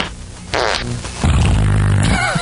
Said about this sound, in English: Everybody's got the farts. Everybody's farting, in the van and all that crap.